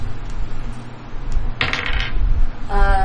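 Dice rolled on a table during a tabletop role-playing game, giving a sharp clattering burst and then a second, brighter rattle that rings briefly over a low background murmur.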